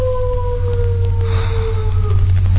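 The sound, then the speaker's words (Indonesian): A dog howls in long, drawn-out tones that slowly slide lower in pitch, with a strong steady low hum running underneath throughout. “suara anjing yang tiba-tiba saja terdengar melolong dan menggonggong panjang”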